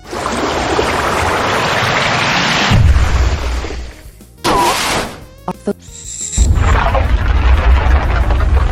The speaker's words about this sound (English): A rocket.